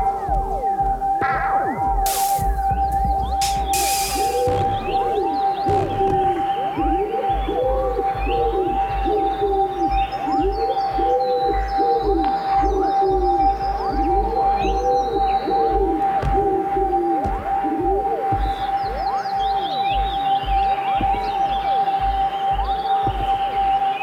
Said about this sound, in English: Pigeon, Columba Columbus, song.